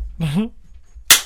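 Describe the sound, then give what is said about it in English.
A single sharp knock rings out as a mic stand is struck, following a brief vocal exclamation and a moment of quiet. “You're hitting my mic stand. That's no good.”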